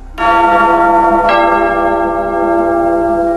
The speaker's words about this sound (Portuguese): Toca o sino, sacristão.